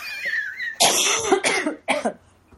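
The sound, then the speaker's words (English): A person coughing: a few harsh, loud bursts in quick succession, each breaking off sharply, with quiet gaps between them. “I'm about to cough again.”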